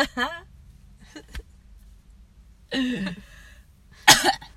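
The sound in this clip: A smoker coughs and clears their throat from phlegm buildup, giving a few short, rough bursts separated by quiet gaps, with the last cough the sharpest and loudest.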